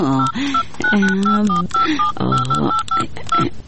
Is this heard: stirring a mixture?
no